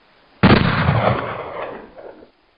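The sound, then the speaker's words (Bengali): A cannon fired from an island booms once with a sudden, sharp blast, then a long, rumbling roar that fades away over about two seconds. “দ্বীপ থেকে কামানের আওয়াজ”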